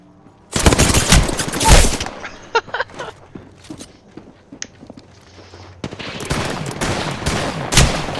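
Video game gunfire: a loud, dense burst of rapid shots at the start, then scattered single shots, and another sustained stretch of rapid firing near the end.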